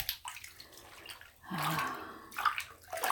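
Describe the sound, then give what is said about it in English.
Soft water splashing and sloshing in a bathtub as someone's back is washed, faint and intermittent, in gentle swishes and trickles. “Let me wash your back.”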